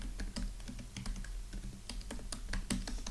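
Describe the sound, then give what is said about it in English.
Someone types a name on a computer keyboard at a Mac login prompt, producing many quick, irregular clacking keystrokes in a continuous run, alone without talk. “Just going to type in my name.”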